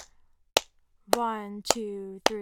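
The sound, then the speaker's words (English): Four crisp hand claps spaced evenly on a steady beat during a demonstration of the downbeat, each sharp and isolated, with a voice sounding between the later claps. “So if I'm clapping,”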